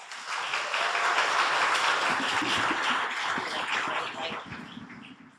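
An audience at a storytelling event applauds to welcome a storyteller to the stage. The clapping is steady and unbroken for about five seconds, then tapers off at the end, with no talk over it.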